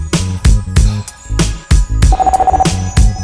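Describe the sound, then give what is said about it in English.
A telephone rings with a short, rapid electronic trill that pulses over a heavy, steady drum beat in a hip-hop track. “The phone rings. Another peaceful moment is lost.”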